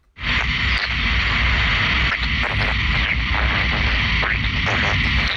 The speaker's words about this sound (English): That isn't some curious creature. It's the sound of a data centre, recorded by Mullah Divyak.